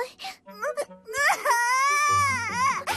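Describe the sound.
A child crying, with broken sobbing sounds first and then a long, loud, wavering wail that rises and falls in pitch.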